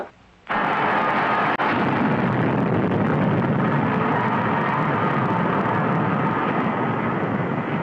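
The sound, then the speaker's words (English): Rocket engines firing on a spacecraft in free fall, just clear of a space station. After half a second of quiet, a sudden loud, broad roar starts and holds steady. One sharp crack cuts through it early on. “Firing rockets in 2 seconds.”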